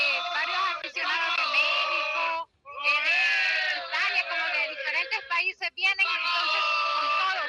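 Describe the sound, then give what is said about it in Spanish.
Salvadoran football fans in a crowd shout and chant. Many voices rise and fall in long, loud, high-pitched bursts, broken by a few brief pauses. “porque oigo el gran bullón que tiene. Sí, aquí también los amigos han estado gritando”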